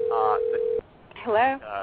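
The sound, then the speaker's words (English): A steady, unbroken electronic incoming-call telephone tone holds for under a second while a voice begins, then people talk after it stops. “I guess we're getting a caller here. Hello. I'm sorry, Peter. I just brought in Meredith Kagan. My fault. These bells and whistles on the Blog Talk Radio can get a little tricky.”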